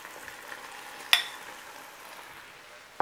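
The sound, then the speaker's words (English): Broccoli sizzles as it is stirred into a sauce of chicken broth, soy sauce and oyster sauce, a steady frying hiss broken by two sharp clatters, one midway and one at the end. “Chicken broth, soy sauce, more oyster sauce. That's going in. And now all my broccoli.”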